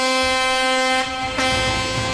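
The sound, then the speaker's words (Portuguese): A truck driver sounds an air horn, a loud, sustained, brassy blast that dips briefly midway and then carries on, over a low engine rumble. “Buzina pra mim também, caminhoneiros, caçambeiros e carreteiros.”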